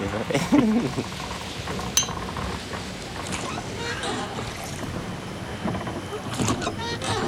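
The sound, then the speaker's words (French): A canoe moving off across calm sea water at night: continuous sloshing and splashing with a steady, fairly loud wash of water noise and a brief voice-like sound near the start. “le canot, là. Le canot, il s'en va.”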